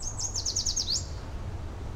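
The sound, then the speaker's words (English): A yellow warbler sings in Brooklyn's Prospect Park: a quick run of bright, high, slurred notes fills the first second, then gives way to a steady low hum. “Hundreds of acres of fine Brooklyn birds, like this yellow warbler.”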